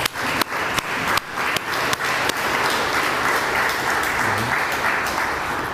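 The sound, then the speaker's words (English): Audience applause at a Peace Officer Memorial Day ceremony, opening with a few sharp, distinct claps before swelling into steady, dense clapping that holds for several seconds and then eases slightly. “So they did a heck of a lot to make sure this day was going to happen, and I'd like to give them some applause too”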